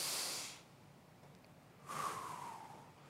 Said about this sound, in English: Can we take three deep breaths together to really blow out any anxiety and any stress